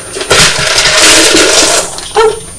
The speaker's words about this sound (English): Shall I take the lid off for you? No. Oh yeah, the bin lid's coming.